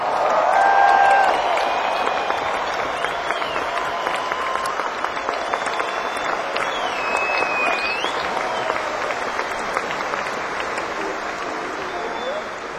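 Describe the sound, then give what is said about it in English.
Audience applause rolls on as sustained, even clapping. A few high whistles and cheers rise above it, and the clapping stays loud and unbroken for over twelve seconds. “Let's hear it for Georgie.”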